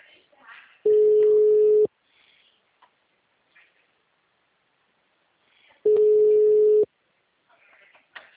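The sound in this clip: A phone's ringback tone plays during an outgoing call: two steady mid-pitched tones, each lasting about a second, with a long silent gap between them. Faint scattered background sounds fill the pauses.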